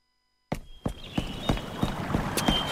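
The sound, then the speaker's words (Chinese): Footsteps of someone walking along a river path, in a steady series of firm, evenly spaced steps after a moment of silence, over a constant background hiss. “你又走路啊？ 哎，是啊，沿河走一圈”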